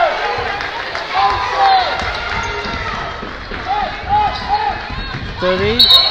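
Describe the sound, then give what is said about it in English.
A basketball dribbled on a court during a girls' high school regional quarterfinal game, with repeated bounces amid squeaking sneakers, crowd noise and voices in the background. “And double dribble, Lady Tiger basketball.”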